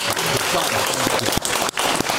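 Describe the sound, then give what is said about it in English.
Audience clapping at a live comedy event, a dense steady burst of applause with a few cheers and voices mixed in, fairly loud throughout. “Sunny Green, clap for Sunny Green.”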